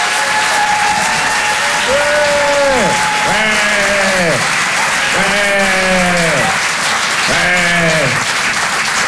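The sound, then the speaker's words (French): Audience applause and cheering greet a comedian at a French comedy and music show: a dense, steady clatter of clapping with a few long, drawn-out vocal cheers rising and falling above it. “Je vous demande de faire un maximum de bruit et de l'encourager très chaleureusement.”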